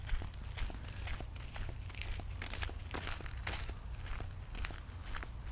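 Footsteps of a person walking, a steady series of many soft steps in an even rhythm over a low, rumbling background, faint throughout.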